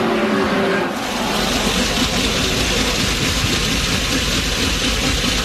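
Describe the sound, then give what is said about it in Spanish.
Loud, rough racing car engine noise, from a car whose engine ran well and then broke down, holding a dense, continuous roar with steady level throughout and no voices. “Este es el sonido de un motor cuando va bien y cuando rompe.”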